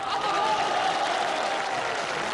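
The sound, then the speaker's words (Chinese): Warm audience applause at a New Year celebration, with the men in the crowd clapping especially heartily: a steady, dense patter of many hands that stays even and moderately loud throughout. “因为我发现男同胞的掌声啊热烈。”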